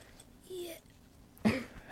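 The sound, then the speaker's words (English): A child coughing: one short, sharp cough, fairly faint, preceded by a soft murmur of voice. “Have a cough.”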